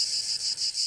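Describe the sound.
A chorus of 17-year periodical cicadas gives a steady, dense, high-pitched buzz with faint pulsing, continuous throughout and free of voices.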